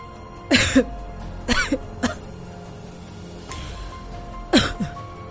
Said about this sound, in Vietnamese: vừa nói vừa ho khủ khủ